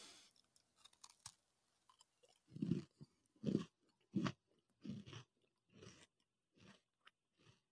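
Loud crunching bites of Simple Mills gluten-free peanut butter sandwich cookies, a knockoff of a branded kind. Several chomps come at an even pace, each a short, dense burst with no talking between them.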